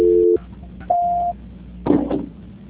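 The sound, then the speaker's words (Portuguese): Electronic tones mark a telephone call being transferred. A short dual-pitched beep is followed by a longer single beep at a higher pitch, then a brief crackling burst, all with thin telephone-line quality. “A ligação ficará muda por alguns instantes. Transferência.”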